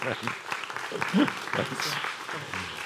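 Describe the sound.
Church audience applauding a guest pastor, clapping with scattered voices and calls mixed in, rising slightly in the middle and continuing to the end.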